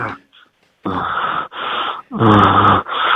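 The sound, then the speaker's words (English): A person fakes moaning and groaning: four drawn-out, voiced, breathy vocal bursts in a row, each loud and sustained with short gaps between them, the last cut off. “That was a moan. That was a groan.”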